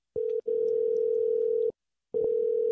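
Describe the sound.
Telephone ringing tone heard while calling a number: a steady, mid-pitched electronic tone in long stretches, broken by a brief gap near the start and a longer pause before it resumes.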